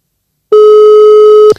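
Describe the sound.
A telephone busy signal on a call that goes unanswered: a single loud, steady electronic tone lasting about a second, heard alone.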